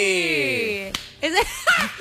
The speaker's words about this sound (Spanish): ¿Quiere que le haga el aplauso de Simon Cowell?